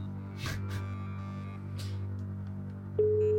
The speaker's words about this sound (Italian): Telefonata che dovrebbe avviare adesso.